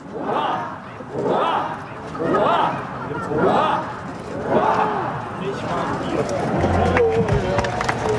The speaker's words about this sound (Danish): Og jeg har fisket lidt lyd ud, og så var der lige nifoldigt leve her for kongen.